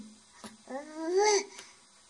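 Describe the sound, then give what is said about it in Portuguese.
Baby babbling, a few soft short syllables with a longer sing-song vocal sound in the middle, faint and brief. “É o bebê.”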